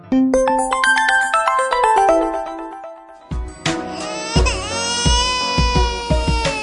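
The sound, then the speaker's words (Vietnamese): Loud, exaggerated wailing and sobbing, with pitch rising and breaking in pulses, bursts in right after a bright, descending electronic chime melody and carries on through the second half. “Anh, bắt đầu bản tin sao lại khóc?”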